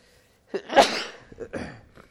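A single sharp sneeze during a religious lesson, with a brief breathy lead-in and a loud burst, followed by softer low sounds.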